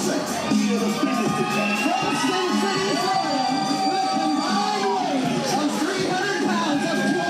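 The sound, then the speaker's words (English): Loud crowd cheering and shouting at a live event, a sustained roar with whoops and high-pitched shrieks rising above the din throughout. “Watch the Grindhouse react to the sexy ankles, everybody. Also, cover your ears because it's going to be loud.”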